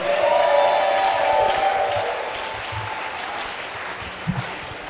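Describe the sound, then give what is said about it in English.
A church audience applauds and cheers to welcome a bishop to the stage. The steady, dense clapping and crowd noise are loud at first, then ease slightly. “Let's put our hands together, celebrate the gift of God tonight.”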